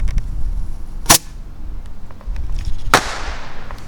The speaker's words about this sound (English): And I'm out here lighting rockets because that's a fun thing to do. If you're me, put another one in the tube here.